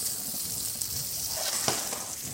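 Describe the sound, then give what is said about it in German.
Food frying in hot neutral oil in a pan gives a steady, fairly faint sizzle with light crackles and one brief sharper pop. “Darf jetzt nicht zu heiß sein. Weil sonst verbrennen die natürlich ganz schnell. Aber soll auch gleich anfangen zu braten.”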